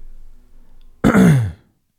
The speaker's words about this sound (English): It picked up your cough.